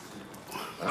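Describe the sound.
A hungry six-week-old wild boar piglet gives a short, faint grunting squeal that swells louder toward the end, with no talk.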